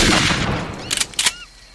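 Rifle gunshots in a video game: a few sharp, loud cracks in quick succession, following a stretch of noisy, rumbling game sound.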